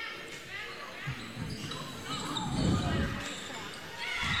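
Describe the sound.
A volleyball serve and ace during a match, with a few dull ball impacts over a steady crowd murmur that swells slightly in the middle of the rally.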